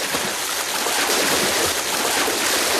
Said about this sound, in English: Keep swimming. Coach, I've been in the lake since 11 last night. I don't know if I can make it 32 miles.